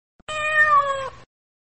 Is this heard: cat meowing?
yes